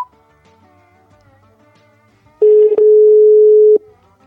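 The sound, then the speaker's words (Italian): Telephone call tone after a call button is pressed: faint, wavering tonal sounds give way to a single loud, steady tone lasting about a second and a half, which then stops. “Io intanto pigio il bottoncino di chiamata.”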